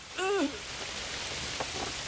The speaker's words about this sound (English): It's night, and in torrential rain, a bucket of water is thrown in Beckett's face.